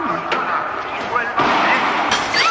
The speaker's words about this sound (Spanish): una bomba de humo cae sobre los pasteles.